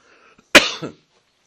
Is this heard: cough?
yes